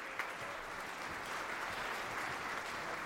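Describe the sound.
Steady applause from a church audience welcoming the preacher, with dense, even clapping that holds at a constant level throughout.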